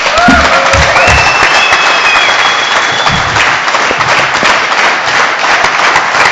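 Audience applause welcomes a guest on stage: dense, steady clapping fills the whole stretch at a fairly loud, even level, with a few high whistles rising above it.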